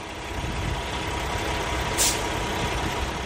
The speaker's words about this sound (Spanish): Probablemente en los últimos días no encuentres otro sonido tan simple y tan complejo como el del motor de un camión.